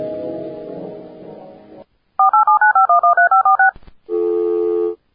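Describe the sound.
Telephone keypad dialing tones during a phone call: a quick, evenly spaced run of about a dozen loud touch-tones, followed by one longer steady tone.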